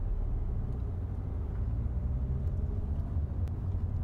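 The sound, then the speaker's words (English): A car creeps forward slowly at about 7 miles an hour, giving a low, steady engine rumble that stays even throughout with no distinct events. “Drive forward to the next operative for me, please.”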